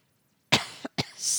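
A man clears his throat with a strong rasp followed by two shorter rough bursts, heard alone against silence.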